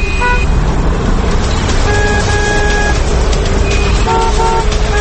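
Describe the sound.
Car horns honk in busy city traffic, a few short toots and longer blasts cutting over a steady, loud roar of engines and road noise.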